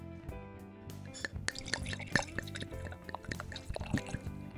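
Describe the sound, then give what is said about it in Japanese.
Koshu skin-contact orange wine, 2023 vintage, is poured into a glass, producing faint, irregular liquid trickles and small drips with a few sharper glassy clicks. “今日ご紹介させていただくのはカーブアン・ア・ターブル・カモシ甲州2023です。ちょっと早速注いでみたいと思います。”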